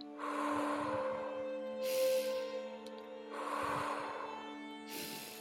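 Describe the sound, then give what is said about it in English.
Slow, relaxing deep breathing, soft and faint, with two unhurried cycles of drawn-in air and long release over a steady, calm musical drone. “Let's begin with a relaxing breath, just letting go.”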